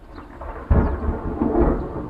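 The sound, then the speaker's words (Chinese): Thunder breaks suddenly out of quiet as a storm threatens rain, then rolls on as a deep, sustained low rumble. “俺看外面现在打雷打闪的，恐怕要下雨了。”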